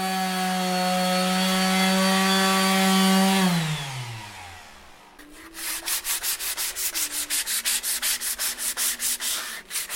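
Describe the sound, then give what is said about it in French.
Woodworking machines run in a wood workshop: a steady motor whine winds down with falling pitch, then a loud, rapid, rhythmic rasping like sanding or sawing continues on its own. “Rencontre par une fraîche matinée entre bruit de machines, de chaudières et de musique jazzy à la radio pour l'observer travailler.”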